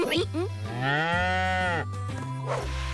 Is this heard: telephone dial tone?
no